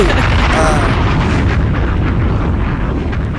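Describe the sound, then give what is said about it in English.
A bomb explosion sound effect gives a loud, dense, low rumble that holds steady throughout and eases only slightly at the very end. “Look, I this is where I would hit the bomb if I had the app open. Add it in post. Add it in post, man. Right here.”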